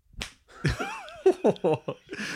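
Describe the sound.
A voice imitates an egg being smashed against the sharp corner of a granite worktop, with a brief voiced lead-in followed by several quick wet smacking pops in a rapid run.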